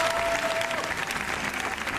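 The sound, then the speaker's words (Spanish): Applause from the audience at a screening at the Cannes film festival, a dense, steady wash of many hands clapping at even loudness throughout the brief stretch, without speech. “Y en el cine, el largo aplauso...”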